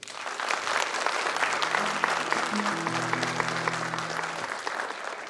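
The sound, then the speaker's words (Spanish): Dense, steady applause from the audience at a contest final in Puente Alto, loud and continuous from start to finish with no pause in the clapping. “El último aplauso por Piñera y Bielsa.”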